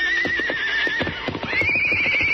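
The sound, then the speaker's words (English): A horse whinnies in a long, high, wavering call that jumps higher partway through, over a steady patter of many hoofbeats. “Then as Silver whinnied,”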